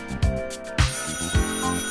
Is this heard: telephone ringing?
yes